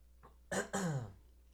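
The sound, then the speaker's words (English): Throat clearing and coughing from someone who got something caught in the throat: two sharp, loud rasping bursts in quick succession, the second trailing into a falling, voiced grunt before quiet returns. “Sorry. Something got in my throat.”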